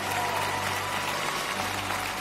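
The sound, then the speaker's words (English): A church audience applauds in dense, steady clapping that holds at an even, loud level for the whole stretch without pause. “Still standing, Lakewood. A little more applause.”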